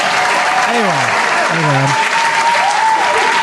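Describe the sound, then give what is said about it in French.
Loud, continuous audience applause at the opening of a show, with a voice speaking over the clapping. “Bonsoir, public en délire.”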